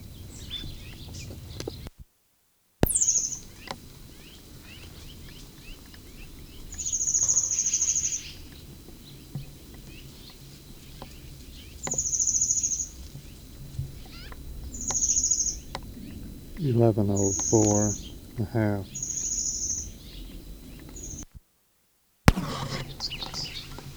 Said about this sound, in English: Bird has been singing steadily for about 10 minutes.